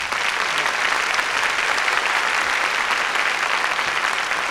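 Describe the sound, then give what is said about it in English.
Audience applause for the Bobby Morris Orchestra: dense, steady clapping from many hands that holds at an even, full level throughout. “If you would, I'd like you to give a nice hand to the Bobby Morris Orchestra, ladies and gentlemen.”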